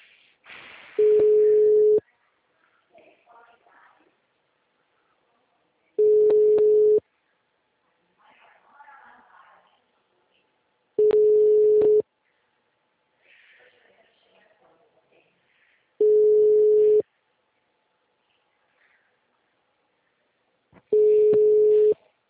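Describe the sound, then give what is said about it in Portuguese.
A telephone busy signal on an engaged number: five steady, mid-pitched tone bursts of about a second each, evenly spaced with long silent gaps, with faint voice-like murmuring between them. “número está ocupado.”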